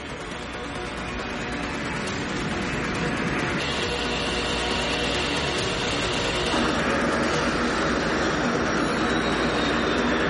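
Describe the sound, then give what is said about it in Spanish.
An airplane accelerates down the runway toward takeoff: a dense, steady roar of engine noise fills the whole clip, building gradually in loudness with no voices present. “Cierran las puertas y despejan la pista. El avión avanza aumentando poco a poco su velocidad.”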